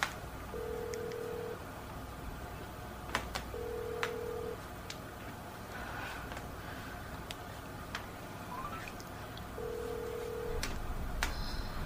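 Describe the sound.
A telephone rings during a call. Three short, steady tones come through faintly, separated by long pauses, over low background noise and scattered light clicks.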